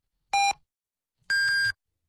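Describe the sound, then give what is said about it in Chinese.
A radio hourly time signal marks six o'clock with two clean electronic beeps over silence, a short lower tone followed by a longer, higher one. “现在是北京时间6:00。”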